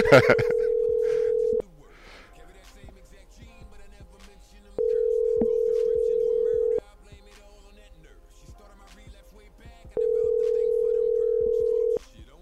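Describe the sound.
Outgoing phone call ringing on the line: three long, steady mid-pitched ringback tones, each about two seconds, separated by quieter gaps of roughly three seconds.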